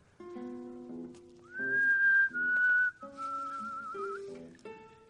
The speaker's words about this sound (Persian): من میخوام سوت بزنم